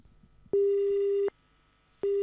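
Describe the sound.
Telephone disconnect tone after a call is cut off: a loud, steady, mid-pitched beep, a short silence, then the beep starting again before the sound breaks off.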